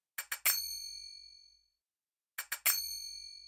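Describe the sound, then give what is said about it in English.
Finger cymbals (zills) in a Middle Eastern sample loop: two groups of three quick, bright metallic strikes, separated by silence. The last strike in each group rings out with a long, shimmering decay. “Especially clever is the incorporation of finger cymbals,”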